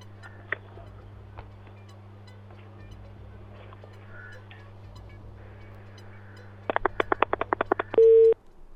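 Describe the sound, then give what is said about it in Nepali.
A telephone busy tone sounds after a phone line cuts out. A faint steady hum comes first, then a rapid run of short, loud beeps near the end, finishing on one longer held tone. “उहाँको चाहिँ phone कटेको छ या त के भयो बुझ्न गाह्रो भयो, phone चाहिँ कटेकै हो है, टुट गरिरहेको छ।”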